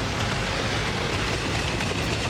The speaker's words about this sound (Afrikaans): Ah, jy word in die trein, hè? Dis die trein na Pretoria toe, nie?